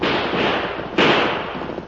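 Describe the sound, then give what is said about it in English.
Two gunshots fired overhead as a warning by outlaws, each a loud, sharp crack with a decaying tail, about a second apart. “The next time my boys shoot, they'll aim right at you. Sit over your heads.”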